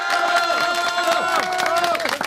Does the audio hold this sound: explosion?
no